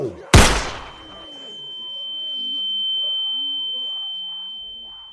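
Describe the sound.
A single gunshot bursts out as a sharp, loud crack that decays quickly into a steady, high, thin ringing tone lasting to the end, with faint murmuring underneath.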